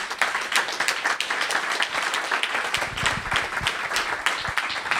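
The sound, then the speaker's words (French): An audience at a science event in Lyon applauds loudly: dense, continuous clapping holds steady for the whole stretch. “Donc dites merci à Martin en l'applaudissant très fort.”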